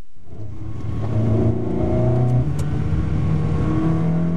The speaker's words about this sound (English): That's the sound of George Caballa's $200,000 Ferrari.